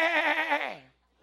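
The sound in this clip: A human voice imitates a sheep's bleat: one wavering, nasal 'baa' with a trembling tone that drops in pitch and fades out at the end.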